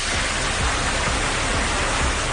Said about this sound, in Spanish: Una cascada de agua saliendo del techo que ha provocado daños en las tuberías del edificio y que terminó en la inundación del pasillo de la planta cero